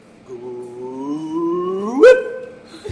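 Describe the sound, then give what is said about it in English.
A voice imitates a gravitational wave chirp, a low hum sweeping steadily upward in pitch and ending in a brief, louder blip, with no other talk. “I'm going to have to wing it and do the audio for you, which is fine. I've got to wait for it. So it enters at the lower bound at the 20 hertz. So it's going to start low and it's going to sweep up as they get closer together. It honestly sounds like this.”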